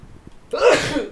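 A single loud sneeze bursts out after a brief quiet stretch of faint sounds. The sharp, airy blast fades within about half a second.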